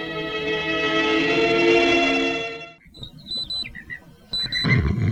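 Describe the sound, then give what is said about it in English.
A science-fiction intergalactic distress signal alarm, linked to the TARDIS: a loud, sustained droning tone fades away, then a few high, bright electronic beeps sound in short bursts. “What's that noise? Intergalactic distress signal. Distress signal?”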